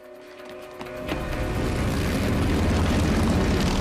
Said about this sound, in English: A group of bikers trundles past.